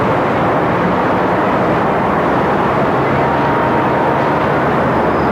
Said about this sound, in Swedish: the royal family gathered on the balcony of Buckingham Palace will be able to see this plane as they fly overhead, the first of a selection of planes from the World War years to pay their tribute to the royal family and to the nation.